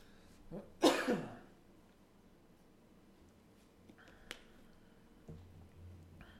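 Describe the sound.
One sharp, loud cough comes from a throat with a lingering tickle at the back, just after a faint throat sound. Near-quiet follows, broken only by a couple of small clicks.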